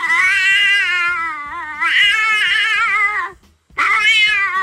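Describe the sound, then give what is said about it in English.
Loud, high cat meows: two long, drawn-out yowls with warbling, wavering pitch, then a short pause before a third call begins. “You can hear the cat trying to go, no, wait, is that coming from you?”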